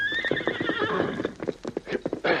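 A horse whinnies loudly at the start, the call sliding down in pitch, then hooves clip-clop in a quick uneven run as the animal moves.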